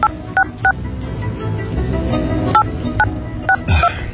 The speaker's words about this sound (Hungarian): 8962-vel végződik, de visszahívom. Most már nem mutasd a négyes, mert hívunk.